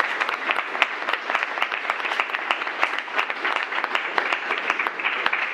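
An audience applauds to welcome a panel guest, a former Conservative councillor, at a human-rights debate. The clapping is steady and dense, with individual claps standing out in a brisk rhythm.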